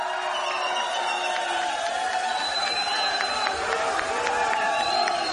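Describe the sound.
A live crowd cheers at a Cinco de Mayo radio broadcast event, a steady, loud din of mingled voices and shouts with faint high whistling tones cutting through now and then.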